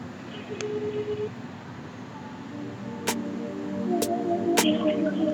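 Telephone being dialed for a call: short electronic tones and a few sharp clicks sit over a steady hiss of line static, with no talk.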